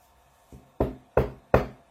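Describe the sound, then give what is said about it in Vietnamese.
Soft knocking on a door: three evenly spaced, muted raps, preceded by a fainter tap, each short and dull, with silence in between. “Có tiếng gõ cửa vang lên rất khẽ.”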